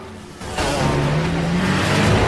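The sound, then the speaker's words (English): Jeep driving past on a road with motorbikes circling: a dense engine roar that jumps in loudness early on, then holds a strong drone that slowly rises in pitch. “Riley and Charlie zip by in the Jeep as bikes circle.”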